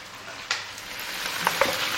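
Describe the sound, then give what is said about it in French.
Chicken thighs fry in a pan with herbs added, browning with a steady, even sizzling hiss. A few small pops and clicks sound over it. “Alors à présent, je vais prendre les cuisses de poulet. Donc je les fais revenir. Et je rajoute les herbes.”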